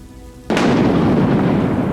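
A sudden, loud thunder clap bursts in about half a second in, then rolls into a sustained heavy rumble mixed with a rain-like hiss that stays loud to the end.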